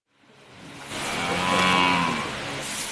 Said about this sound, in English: What you can hear is hay being tossed with a pitchfork into some troughs for five very sleek, very beautiful cows to munch.